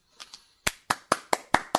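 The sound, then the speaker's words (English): Hand claps from a teacher applauding students: two soft claps, then six sharp, evenly spaced claps with no voices. “Clap. Okay. I'll clap for you, my students, because you're doing such a good job.”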